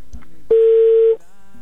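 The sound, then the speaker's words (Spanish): Telephone ringing tone on an outgoing call: a single steady, mid-pitched tone lasting under a second, heard alone against near silence. “ya entró otra vez la llamada, ya está sonando.”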